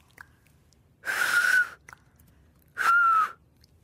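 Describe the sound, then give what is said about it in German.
Two loud two-finger whistles, each a sharp high-pitched blast lasting under a second, breathy and airy around a steady shrill tone, separated by a short silence. “Pfiff auf zwei Fingern.”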